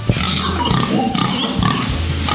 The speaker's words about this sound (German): So, jetzt weiß ich nicht, ob man sie hört. Jetzt sind sie so leise. Haben deine Schweine Namen?